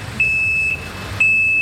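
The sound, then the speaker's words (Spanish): A truck's reversing alarm gives two high, piercing electronic beeps while it parks. The second beep is still sounding at the end, over a low, steady engine rumble. “¡Ah, un camión! Que está estacionándose allá afuera.”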